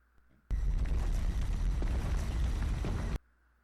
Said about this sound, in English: You like that bomb?